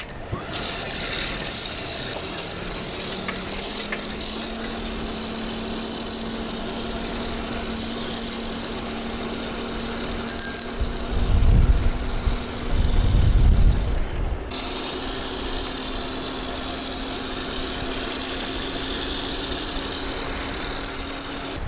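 An engine with weak starting torque and a constantly slipping clutch starts up and settles into a steady whirring run with a faint mechanical ratcheting. A louder, low rumbling surge builds midway before the even running resumes.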